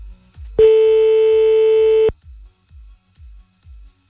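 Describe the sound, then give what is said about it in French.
A telephone line tone while calling someone back: one loud, steady electronic beep held for about a second and a half, with a run of short, low, evenly spaced pulses before and after it. “on rappelle le monsieur pour avoir plus d'infos”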